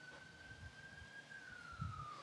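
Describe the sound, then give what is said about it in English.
Faint police car siren as the cops go by: a thin, steady high tone that slips slightly lower toward the end, barely above a low rumbling background. “I don't know if you guys can hear the cops are going by.”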